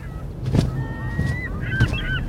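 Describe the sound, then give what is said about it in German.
Gull calls with wingbeats in a sound effect of a large gull swooping overhead on powerful wings; wavering, honking cries over a few soft whooshing bursts. “Plötzlich saust mit kräftigen Flügelschlägen der Möwenkönig über sie hinweg.”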